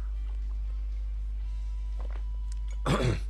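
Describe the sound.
Coughing after something went down the wrong way: a single short, harsh cough bursts out near the end over a steady low hum.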